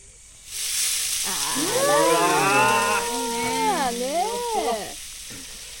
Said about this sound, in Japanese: よし、焼くよ。